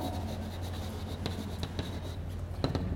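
Writing on a board during a physics lecture: faint scratchy strokes with a few sharper ticks and squeaks, over a steady low hum.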